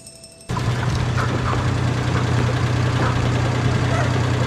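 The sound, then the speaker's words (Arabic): A car engine running, a steady low rumble with a broad noisy wash that starts abruptly and holds evenly to the end. “في موتور سيارة.”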